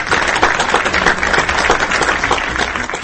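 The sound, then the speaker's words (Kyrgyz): Audience applauding with clapping hands, a dense, somewhat muffled patter that stays steady for a few seconds without pause. “алақан кызарганча анда кол чаап коелучу. Келгиле.”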